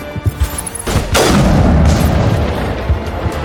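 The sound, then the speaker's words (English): A sniper rifle loaded with tungsten rounds fires in a video game: one heavy, sharp boom followed by a long rumbling decay, with a few lighter thumps before it. “Alright, we got an extra thing of tungsten rounds, 7, so we might as well give our sniper rifle... the best possible tungsten rounds.”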